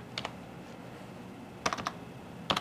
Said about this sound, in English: And we're going to type in workflow.